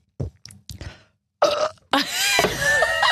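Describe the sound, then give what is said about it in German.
A person burps during a drinking and burping game: a few short throaty sputters come first, then after a brief gap a loud, long rasping burp rumbles on to the end. No voices. “Was für ein ordinäres Geräusch. Bei mir? Oh, so ein Mädchenrülpser war das.”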